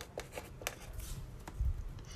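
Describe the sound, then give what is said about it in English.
A pen scratches out a signature again and again, faint dry scraping strokes in a few short bursts with light handling noise, no talk. “I'm just gonna sign everywhere so no one can steal this.”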